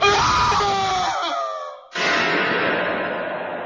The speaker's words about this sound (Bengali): ঘরের কোণে টর্চের আলো পড়তেই চিৎকার করে উঠলাম।